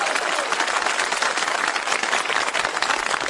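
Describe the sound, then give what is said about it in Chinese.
Audience applause at a crosstalk comedy show, many hands clapping in a fairly loud, steady patter with slight swells in intensity. “你说观众不给你鼓掌吧，手已经伸出来了；给你鼓掌吧，心里不情愿。嗯，得了，鼓两下吧。”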